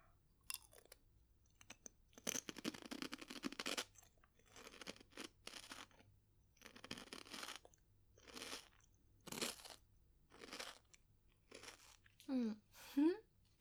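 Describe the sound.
Crisp crunching and chewing of a simple salted, wheat-flour-flavoured snack. Many sharp, irregular bursts of crunch separated by brief pauses, fairly close and distinct against a quiet background.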